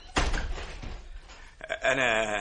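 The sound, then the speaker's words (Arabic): A door is shut behind a man entering with two suitcases in a stage play: a heavy thud, then lighter knocks and clatter, followed by a voice. “يدخل غريغوري حاملا حقيبتين. ديبورا تغلق الباب خلفه.”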